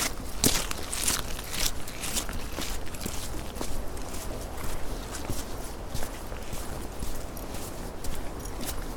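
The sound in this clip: Footsteps on a morning walk tread in a steady, even rhythm over a constant outdoor background, with many soft steps and no talk.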